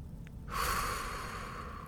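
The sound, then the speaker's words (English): A long, breathy exhale through the mouth follows a quiet start, swelling quickly and then holding as a steady airy rush, part of a slow deep-breathing exercise of in through the nose and out through the mouth. “So take a few deep breaths in through your nose. Let your belly expand. And then open your mouth and exhale,”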